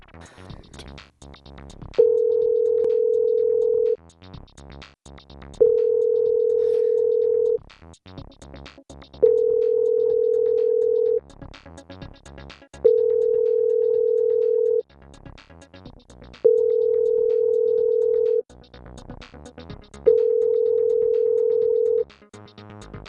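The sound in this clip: Ringback tone of an unanswered outgoing telephone call: six steady, mid-pitched tones of about two seconds each, evenly spaced by pauses, with a faint background sound continuing between them.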